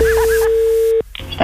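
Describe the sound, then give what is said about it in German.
A telephone call tone sounds as a phone line connects at a radio station: a single steady, mid-pitched tone holds for about a second, then cuts off abruptly into brief line noise. “Das Telefon.”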